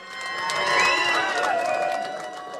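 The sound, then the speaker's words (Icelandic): Crowd cheering and shouting at an election night party at Glerártorg. The noisy swell of voices holds steady for nearly three seconds, peaking early and easing slightly toward the end. “Sjónvarpsupptökur frá kosningavöku ellistans á Glerártorgi þessa nótt sína fagnaðalætin.”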